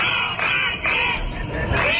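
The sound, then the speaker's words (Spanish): A crowd of protesting teachers in Catalonia shouts and chants in a dense, loud roar, with a few sharp surges of louder voices rising above the steady din. “Este es el sonido de una nueva jornada de protestas de los profesores en Cataluña.”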